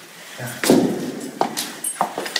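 An apartment door is unlocked and opened: a dull thud followed by a few sharp clicks and knocks, moderately loud, with no voices.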